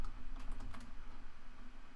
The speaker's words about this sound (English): Now, I put in, please type in the sky is blue into the answer field.